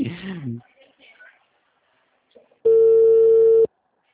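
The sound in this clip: A telephone busy tone after a dropped call sounds as a single steady, mid-pitched beep lasting about a second. It follows brief talk and a short quiet pause.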